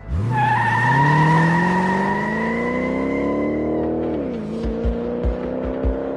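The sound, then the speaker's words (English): A sports car accelerates down an empty street. The engine note climbs steadily in pitch for about four seconds, dips sharply at a gear change, then carries on as a lower, steady drone with a few low thumps. “The sports car accelerates down an empty street.”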